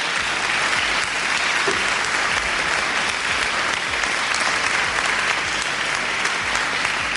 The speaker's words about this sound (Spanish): Y a mí lo primero que me gusta hacer es darles un aplauso para que se sientan cómodos.